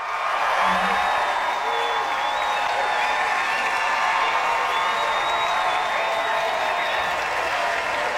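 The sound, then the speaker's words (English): A standing ovation fills the house on opening night of the Rocky Horror Show at Studio 54. Continuous loud applause and cheering carry shrill whistles and whoops on top, holding steady the whole time. “And they're bowing down to Rosie O'Donnell because she crushed it. She got a standing O.”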